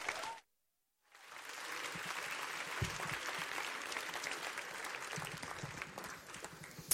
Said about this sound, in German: Applaudiert richtig laut, er kommt aus Berlin. Riesenapplaus